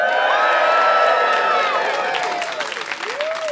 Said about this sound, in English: Ladies and gentlemen, please welcome Miss Mary Burke and the audience go mental!